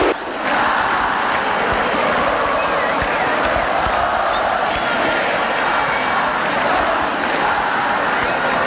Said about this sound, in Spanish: El que no salta no va al Mundial, vibra en la grada de cemento. El público está de pie, escuchen.